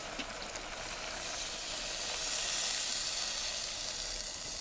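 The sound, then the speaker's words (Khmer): Sizzling hiss as water is added to a hot cooking pot, a continuous steamy crackle that swells slightly midway and stays steady to the end. “ខ្ញុំសូមដាក់ទឹកបន្ថែមទៀត”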